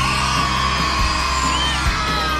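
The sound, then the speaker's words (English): A crowd yells and whoops continuously at a live show in Bridgewater, a loud, sustained wall of screaming voices with no break. “Scream if you think I'm brilliant! Scream if you think I'm brilliant!”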